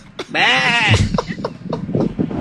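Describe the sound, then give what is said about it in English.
A goat lets out one loud, wavering, quavering bleat lasting about half a second, followed by a string of fainter short rustles and knocks. “Why do we have so many goats?”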